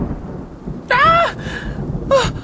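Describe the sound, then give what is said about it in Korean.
Thunder rumbles low and steadily through a night thunderstorm with rain, while brief high tonal sounds rise over it twice. “그리고 그날 밤 천둥번개가 무섭게 내려치는데요.”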